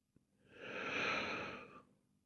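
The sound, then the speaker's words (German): One slow, deep breath drawn in through the belly and chest. It is quiet and airy, swells and fades over about a second and a half, and follows a faint click. “atme ganz tief in meinen Bauch hinein und beim selben Einatmen ganz hoch in meinen Brustkorb.”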